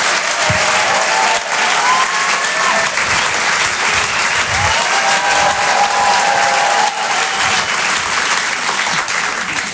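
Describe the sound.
Loud, sustained audience applause at a comedy club, a dense, steady roar of clapping hands that continues without a break from start to end.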